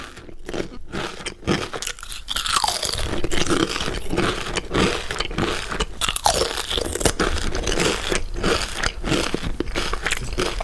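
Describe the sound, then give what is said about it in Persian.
Crunching potato chips: a dense, continuous run of loud, crisp crunches and crackles that sounds like chewing, with no pauses and no voices. “وقتی صدای چیپس با فرکانس های بالا تقویت می شود، افراد آن را ترتر و تازه تر احساس می کنند”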